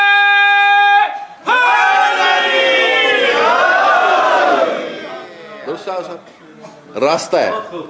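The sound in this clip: A large crowd roars back the Nara-e-Haidri slogan in loud unison, a swelling chanted shout that holds for a few seconds before dying away into scattered voices.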